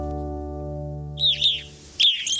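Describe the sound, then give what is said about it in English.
Evening grosbeaks call at a bird feeder: a few bright, sharp chirps in two short bursts, heard alone after a low steady hum fades away. “These evening grosbeaks are enjoying a meal at a bird feeder.”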